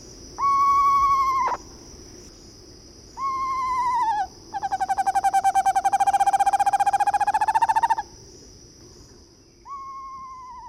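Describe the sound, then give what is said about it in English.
A screech owl gives clear, mellow whistled calls: two short steady tones, then a long even trill, and a final tone cut off at the end. A faint steady high hum runs underneath throughout. “Now here's the sound of a real screech owl.”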